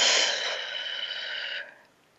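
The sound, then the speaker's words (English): A slow, deep breath during a guided mindfulness exercise: a single, steady, airy rush of breath noise that holds for about a second and a half, then quickly trails away, heard alone without talk. “Let's take a breath. In through the nose, out through the mouth.”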